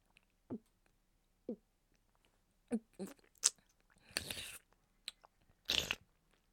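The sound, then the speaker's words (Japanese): Wet mouth sounds from eating rich ramen noodles: scattered soft smacks and clicks with quiet pauses between them, plus two longer, louder slurping bursts near the end. “社長の濃厚プリプリラーメンいただきますね”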